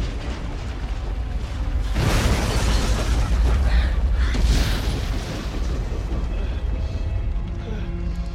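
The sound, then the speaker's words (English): In a film scene, a helicopter explodes into a fireball over water: a sudden deep boom that swells into a sustained, roaring rumble before slowly easing off. “Miles and the helicopter become a fireball as Molly and Danny reach the surface.”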